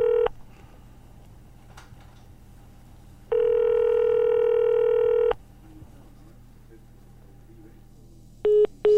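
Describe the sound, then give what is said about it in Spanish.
Telephone tones while dialing a call: a brief tone at the start, then one long steady tone lasting about two seconds. Two short tones follow near the end, all over a low, constant background hum. “Así que en cuanto tengamos esa llamada, a ver, vamos a marcar.”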